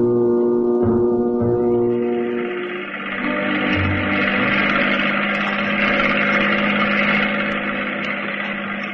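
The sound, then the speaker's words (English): A speedboat engine slowing as it pulls alongside a gambling ship at anchor offshore, a steady, loud, buzzing motor drone with a rich low hum and a brief dip in loudness partway through. “The speedboat slows down and then glides gently in alongside the gambling”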